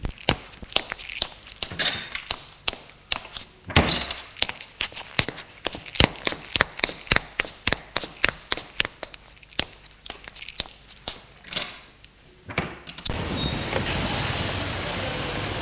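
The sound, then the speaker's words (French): Footsteps walking at a brisk, regular pace, many sharp steps in a row, followed by a car engine starting and settling into a steady, broad rumble as the vehicle pulls away. “Démarre et ils sortent de la ville.”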